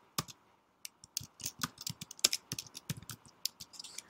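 A product name typed on a computer keyboard: many quick, irregular keystroke clicks in short bursts, some sharper and louder than others, with brief gaps between runs.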